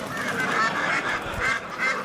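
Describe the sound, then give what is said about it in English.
Ducks quacking as they are released at a cricket match: several nasal, honking calls in quick succession at a fairly loud, even level. “He's out for a duck. Release the ducks.”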